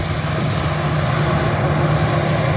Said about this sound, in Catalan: Aquest era el so de l'avió arribant a Barcelona,